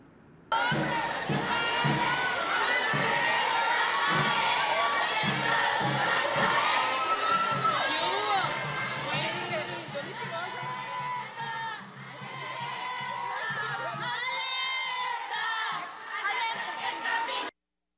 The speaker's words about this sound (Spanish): Esto es parte de lo que se vio en esta marcha en donde niñas, adolescentes, mujeres adultas y adultas mayores estuvieron marchando en el marco del Día Internacional de la Mujer